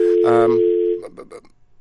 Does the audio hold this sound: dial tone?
yes